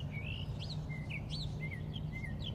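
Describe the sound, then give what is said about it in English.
Morning birdsong rings out as many short, bright chirps and whistled notes in quick succession, some rising and falling, over a constant low hum. “I am grateful for the birds that sing in the morning,”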